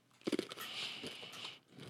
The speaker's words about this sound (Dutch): Zijn M&M's salt caramel. Glutenvrij zijn ze. Oh, salt caramel. Ik hou helemaal niet van zeezout. Zijn wel lekker. Oké, ik neem nu een hapje.